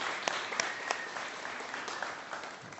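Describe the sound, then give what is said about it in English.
A church audience applauds a woman just baptized, a scattered round of individual claps with a few sharp ones standing out, fairly soft and tapering slightly toward the end. “Let's give her a round.”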